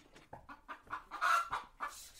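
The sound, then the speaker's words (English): Chickens cluck and squawk on a small farm of banana trees and cassava plants, a busy run of many short, uneven calls that swell to a louder stretch midway before trailing off. “with a few chickens running around and making a racket.”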